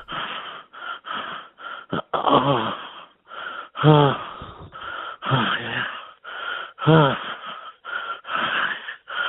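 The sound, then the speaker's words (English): Light wheezing breaths in a quick, irregular series of short airy bursts. Some breaths carry a brief voiced, moan-like tone. They are moderately loud, with short gaps between them. “Here's a finish with some wheezing, some light wheezing.”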